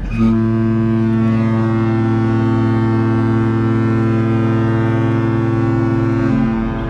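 A cruise ship's foghorn sounds a single loud, deep blast that holds steady for about six seconds before cutting off.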